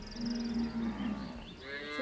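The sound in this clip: Cows mooing in a barn, animals due to calve within weeks: a low, drawn-out moo followed by a shorter, higher call, both fairly faint over a soft background hum.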